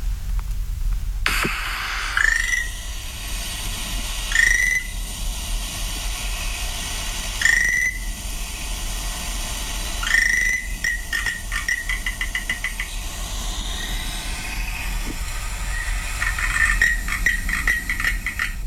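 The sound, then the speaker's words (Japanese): Frog calls recorded on Amami Oshima island: short, bright chirps repeat at spaced intervals, then quicker rattling trains of calls follow, all over a steady background hiss. “奄美大島で聞いたカエルの鳴き声、こんな声でした。”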